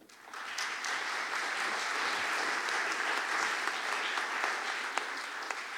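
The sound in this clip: Audience applause welcomes panel speakers, including a deputy mayor for housing, at a discussion on urban resistance to neoliberalism: dense, steady clapping swells quickly at the start and holds evenly for about six seconds.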